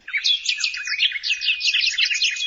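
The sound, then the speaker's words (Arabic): Sparrows chirp as they mob a snake, a dense, continuous high-pitched twittering trill of many rapid overlapping notes with nothing else heard. “ولما أتت الأفعى انقضت عليها العصافير بقوة وشجاعة،”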